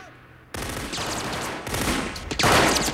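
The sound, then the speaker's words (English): Gunfire from the film RoboCop, a loud sustained burst of rapid shots that swells in intensity toward the end, with dense overlapping cracks and no talking. “A second man steps out, but RoboCop shoots him down.”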